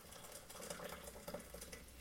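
A spoon stirs two heaped tablespoons of instant coffee into about 300 millilitres of boiling water, making faint, repeated clinks and scrapes in an uneven rhythm with a soft hiss underneath.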